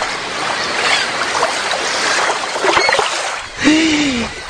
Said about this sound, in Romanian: Și atunci a apărut ca din senin o șalupă pescărească.